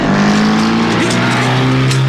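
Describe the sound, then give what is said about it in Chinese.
A car engine roars loudly as a getaway car speeds off in a chase, giving a steady, dense droning tone with strong harmonics throughout the short clip. “金福他们急忙开车逃走，李都督的手下就在后面紧追不舍。”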